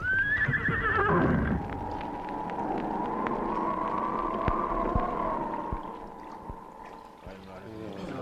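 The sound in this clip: A horse swimming through sea waves gives a loud whinny with a falling pitch at the start. Steady rushing, splashing water follows, with scattered faint clicks and knocks throughout.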